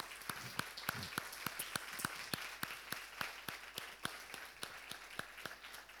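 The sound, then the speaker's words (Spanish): Applause greets parents and their child at a child's presentation ceremony: many crisp, evenly spaced claps in a steady rhythm, fairly faint overall. “Así que les pedimos que vengan aquí y les vamos a recibir con un aplauso, sobre todo a Caleb”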